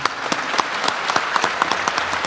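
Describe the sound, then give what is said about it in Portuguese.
An audience applauds to welcome a visiting priest. Crisp individual hand claps stand out from a moderate clapping bed, keeping an even, lively pace throughout. “Vamos acolhê-lo, aplaudi-lo.”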